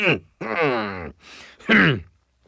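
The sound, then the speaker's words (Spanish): Someone seated in a Lincoln Aviator clears their throat in a few short, raspy, voiced bursts in a row, loud and alone. “Ay, perdón. Es que tenía algo en la garganta.”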